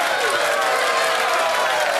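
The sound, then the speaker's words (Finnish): Applause from an audience: a dense, even wash of many hands clapping that holds steady and loud throughout, without a break. “tintataan tuosta vielä Tarullekin isot kiitokset ja aplodit”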